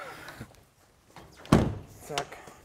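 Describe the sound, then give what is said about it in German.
A heavy loading flap on an old, restored beer trailer swings shut with one solid, dull thud, framed by a few lighter knocks. The flap is stiff and counterweighted, and the closing is fairly faint. “Jo, kannst die Klappe noch mal zumachen, die geht immer so schwer.”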